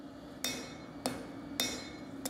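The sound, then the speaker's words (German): Three sharp, evenly spaced hammer blows ring out as a knife maker forges steel in his workshop in Hannover-Döhren. Each strike has a bright metallic ring over a steady low hum. “In seiner Werkstatt in Hannover-Dörren schmiedet er seine eigene Version eines der ältesten Werkzeuge der Menschheit.”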